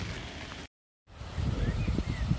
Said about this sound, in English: looking at a harbour that's about 5k's from home, about the edge of my lockdown limit, uh, the side of Auckland's airport